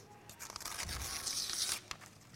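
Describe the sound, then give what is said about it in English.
Paper torn up by hand during a church service, a continuous rough ripping and crackling that runs for about two seconds with no talk. “And I'm going to tear these ones up as well.”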